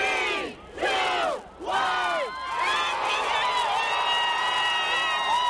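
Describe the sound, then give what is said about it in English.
A New Year 2015 crowd in New York's Times Square: three loud shouts from many voices at once, then sustained cheering and whooping that carries on to the end. “Welcoming 2015, celebrations across the U.S. in New York's Times Square.”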